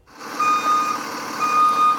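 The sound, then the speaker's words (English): Reversing beeps from a school bus: a steady, high-pitched electronic beep repeating at an even rhythm, loud over a low vehicle rumble, with no voices. “Well, this is our very first school bus that we ended up getting.”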